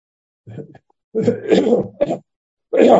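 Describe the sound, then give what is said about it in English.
Throat clearing in a few rough, phlegmy bursts separated by short silences, moderately loud. “Excuse me, clear that phlegm.”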